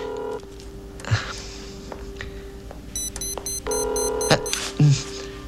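A telephone being dialed: a few sustained electronic tone bursts with short high beeps and faint clicks between them, fairly quiet.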